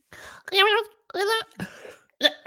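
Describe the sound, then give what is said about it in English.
A person coughs and clears their throat: a few loud, rough, voiced bursts separated by short silences, with a final sharp burst at the end. “I'm so sorry. I had something caught on my throat.”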